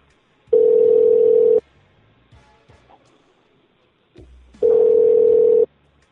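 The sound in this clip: Ringing tone on an outgoing call to a motel room in Baltimore, Maryland: two steady, even tones about a second long each, separated by a few seconds of faint rustling and quiet.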